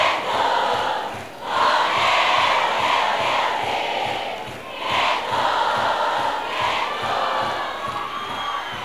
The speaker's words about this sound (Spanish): Yo quiero escuchar bien fuerte el aplauso.